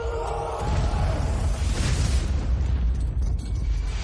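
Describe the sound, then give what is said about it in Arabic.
Bomb explosion in a war in Libya: a heavy, deep blast bursts in early and swells into a long, loud rumbling roar that carries on to the end. “قنبلة.”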